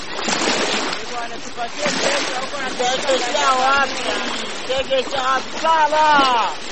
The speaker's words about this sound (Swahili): Unayosikia hayo ni maji ya Ziwa Tanganyika hapa Uvira, Kivu Kusini